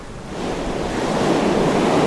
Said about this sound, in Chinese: 这时海浪翻腾得更猛烈了